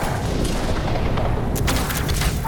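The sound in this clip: Missile explosions in a video game, a loud, dense, continuous rumble of booming blasts with sharper cracks breaking through in the second half.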